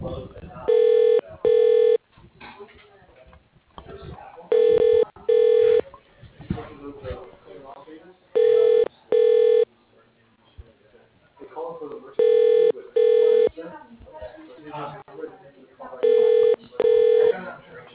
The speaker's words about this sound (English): Would you like his voicemail? Yeah, sure. That'd be great. Just a moment. I'll transfer you.